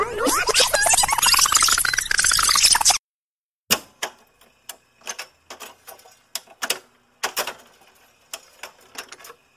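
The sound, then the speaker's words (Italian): A cassette tape is rewound by turning a pencil in its spool: a dense whirring rattle for about three seconds, then a short silence followed by many irregular sharp clicks and ticks. “Direi di riavvolgere il nastro e tornare agli anni Ottanta. Facciamo subito, prendo la mia matitina e riavvolgo il nastro.”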